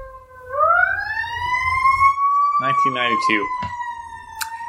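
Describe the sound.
A fire engine siren from a nearby fire station wails, its pitch sweeping upward and then holding steady, while voices briefly talk over it midway.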